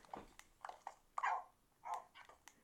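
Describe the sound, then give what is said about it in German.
Tamed dogs in a video game yelp and whimper as they fall into a hole, giving many short, high yips in quick irregular bursts, with a couple of longer whines in between. “Da fallen gerade deine ganzen Hunde rein.”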